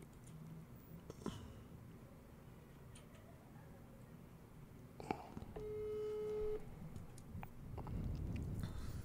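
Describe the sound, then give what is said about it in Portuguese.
One ringback tone from an outgoing phone call: a steady, mid-pitched beep lasting about a second. It sits over faint background noise with a few scattered clicks and no talk. “Vou ligar, vamos ligar nele, vamos ver se ele responde.”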